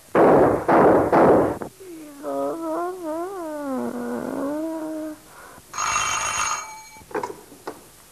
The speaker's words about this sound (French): Essayons ceci. Quelques coups de revolver en l'air.